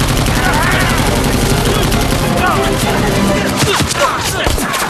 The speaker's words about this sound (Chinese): 给我上机枪！